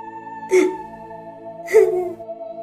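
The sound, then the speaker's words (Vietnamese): A woman cries in pain in two short, strained, gasping sobs, spaced about a second apart over a steady humming backdrop. “Tiếng khóc mỗi lúc một to lên, vô cùng đau đớn, từng chút một làm tan rã trái tim sắt đá của Nam Cung Nghiêu.”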